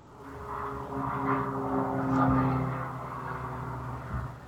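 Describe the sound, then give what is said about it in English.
A helicopter flying past, heard as a low, steady droning engine hum that swells to a peak midway and then slowly fades. “The race? That is a helicopter.”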